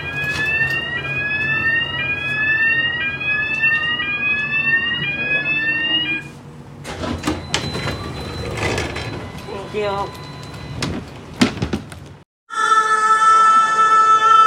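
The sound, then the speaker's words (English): A London bus's accessible ramp deploys: a warning alarm repeats rising electronic sweeps, then mechanical clattering and whirring as the ramp moves, and finally a steady high beeping tone. “Pay attention, because we are going to hear the deployment of the accessible ramp.”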